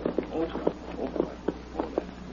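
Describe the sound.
A horse's hooves clip-clop near the mouth of a cave, a faint, steady series of many light thuds spaced at an uneven walking pace.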